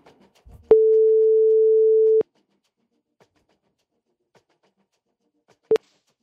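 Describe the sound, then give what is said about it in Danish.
Telephone ringback tone as a live radio call rings out: one steady, pure mid-pitched tone lasting about a second and a half, then silence, then a short blip of the same tone. “Hvis du har sendt mig en sms, og der er en telefon, der ringer, så må du meget gerne tage den nu.”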